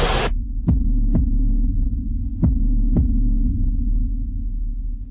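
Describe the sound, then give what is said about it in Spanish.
A heartbeat sound effect: two double thumps in a lub-dub pattern beat over a loud, steady, deep throbbing hum, with no voices. “Suenan los latidos de la patria grande.”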